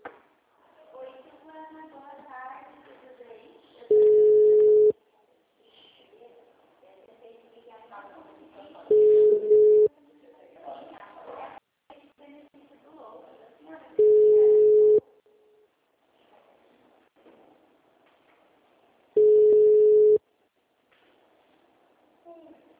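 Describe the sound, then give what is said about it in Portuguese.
Telephone busy signal from a line that isn't answering: four long, steady mid-pitched tone bursts, each a few seconds long, alternating with stretches of talk. “o outro não chama e fica tu, tu, tu, tu, tu, tu, tu.”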